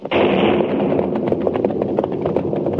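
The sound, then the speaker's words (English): Blasting powder explodes at a mine in a valley at night: a loud, deep boom that rolls on as a sustained rumble with scattered crackling bursts. “They used blasting powder. It's so late. Today's work should be over.”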